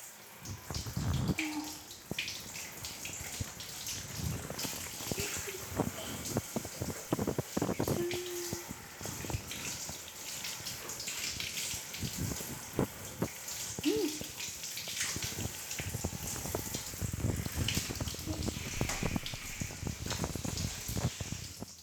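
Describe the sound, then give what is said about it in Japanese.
Water rinsing hair, a continuous soft splashing and pattering that runs steadily throughout with small bursts of louder droplets. “流しちゃうね。”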